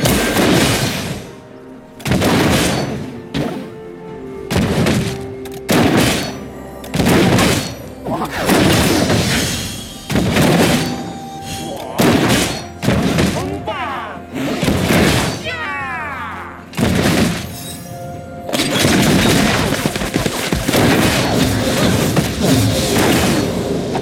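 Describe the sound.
Bombs explode in a video game in many heavy, booming bursts that come in rapid, irregular succession, with voices talking among them.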